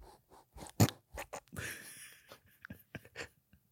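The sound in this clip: A nose rubbing against a microphone gives irregular scratchy, crunching bursts, a few short scrapes and one longer rustle, fairly faint overall.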